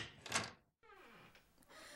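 A door is opened with a short clattering rattle, followed by a moment of silence and then a softer scraping, rubbing movement.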